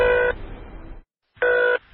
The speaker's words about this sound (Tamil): Gap டிரைவருடைய நம்பருக்கு inspector phone பண்ண.